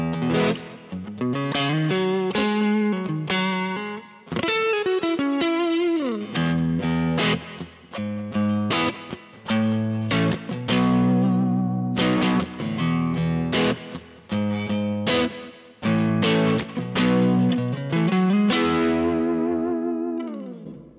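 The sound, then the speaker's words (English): A heavily distorted electric guitar, recorded through a Fathead microphone paired with a 57, plays a riff of chugging chords and sustained notes with full low end and a chorus-like shimmer, alone without voices. “Let's compare this to some other options in the packs. This Fathead has a lot of low end with that 57. So let's listen to that low end in the Fathead.”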